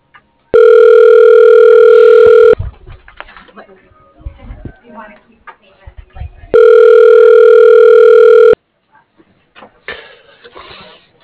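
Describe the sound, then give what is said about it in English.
Telephone ringback tone while waiting for someone to answer: two long, steady buzzing rings of about two seconds each, separated by a pause with faint background noise. “I'm waiting for them to pick up, then I'm gonna be mean.”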